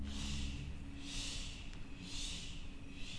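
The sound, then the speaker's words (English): Soft breathing during a breath-work exercise, the air pushed out in a few gentle, evenly spaced pulses, faint and hushed with no talk. “This time we'll pulse the breath”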